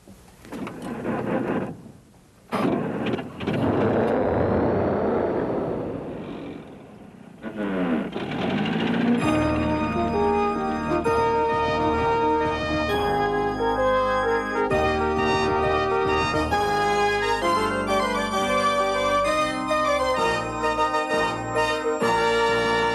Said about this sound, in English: This is an old wreck of a Jeep, but he gets me where I want to go. I call him Jeepasaurus Wreck, and you're not gonna believe the sound this motor makes.